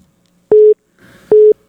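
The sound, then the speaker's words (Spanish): Two loud, steady electronic tone beeps of equal pitch from a telephone line ringing on an outgoing call, separated by a short pause. “ahí lo tengo, ahí está ya sonando el teléfono rápidamente para el Capi Ramón Valverde”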